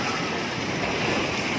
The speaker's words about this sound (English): That's the sound of a tsunami blasting through low-standing bayside buildings in the city of Palu, Indonesia.